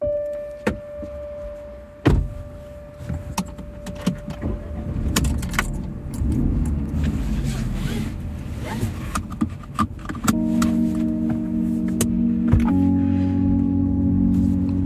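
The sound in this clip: Car driving at night on the road toward Toulouse, headlights on. A steady engine and road rumble runs throughout, with a few clicks and knocks, and a low steady hum joins in the later part.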